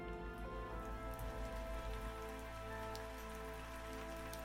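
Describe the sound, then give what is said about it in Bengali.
Rain falls steadily as an even, soft, continuous hiss of drops on surfaces. It is faint and unbroken, with no voices. “বৃষ্টি এসেছে সাজ ভিজবে”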